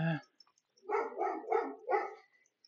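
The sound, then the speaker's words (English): A dog gives three short, low, muffled barks in quick succession, each rounded and gruff rather than sharp, with no talk. “Ah, oh, you wanted to bark.”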